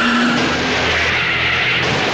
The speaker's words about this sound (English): brakes hard. The cruiser rear-ends him.